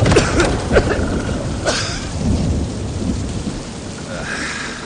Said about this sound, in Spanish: Ángela, resguardada en el pórtico ante la intensa lluvia que cae